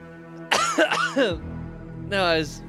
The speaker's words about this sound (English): I was drinking an energy drink and it bubbled up and went down the wrong pipe